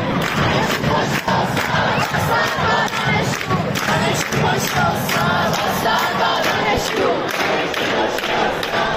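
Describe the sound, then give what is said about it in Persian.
Students chant protest slogans at the literature faculty of Beheshti University. A dense, loud crowd shouts in unison throughout, with rhythmic thumps under the voices. “صدای یکی از اعتراض ها و شعارهای دانشجویان دانشگاه بهشتی دانشکده ادبیات رو میتونیم بشنویم.”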